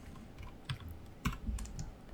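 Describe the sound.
Keyboard typing as a player enters a dice roll during a tabletop role-playing game session: a few short, faint clicking keystrokes in an uneven rhythm, with no one talking.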